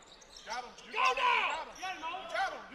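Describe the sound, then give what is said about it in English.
A basketball being dribbled during a game gives soft, repeated low bounces beneath a male voice talking steadily over the play. “Still dribbling out front.”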